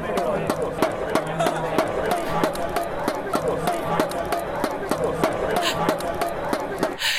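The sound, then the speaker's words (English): Relentless banging of inflatable plastic rods struck together by a cricket crowd, many sharp hollow claps repeating in a steady rhythm over a loud, constant crowd murmur. “which are these sort of long rods that they inflate with their own air, and then they bang them together all the time.”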